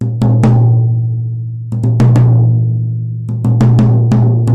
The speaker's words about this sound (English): this is on my small tom. The bottom head is tuned a lot higher than the top head.